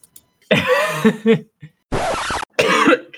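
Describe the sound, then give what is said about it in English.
Deliberate coughing comes in a few harsh, uneven bursts separated by short silences, loud and close, with a throaty, rasping quality and no talk between them. “Now our podcast sign off is just coughing.”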